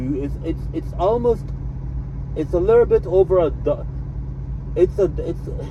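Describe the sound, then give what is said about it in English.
Older Volvo truck with almost 900,000 miles, its engine running as a steady low rumble that continues beneath someone talking throughout. “This is a Volvo, it's an older truck, it has almost 900,000 miles on it”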